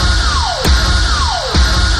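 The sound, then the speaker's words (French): A radio show jingle plays: a whistling tone swoops downward and lands on a thumping hit, and the pattern repeats twice over a steady bed of sound. “Bon, est-ce que je peux l'avoir mon petit jingle?”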